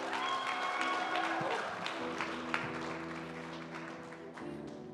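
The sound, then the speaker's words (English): Sustained audience applause welcoming a youth announcements team, dense steady clapping that fills the whole clip at an even level. “Give it up for our youth announcements team.”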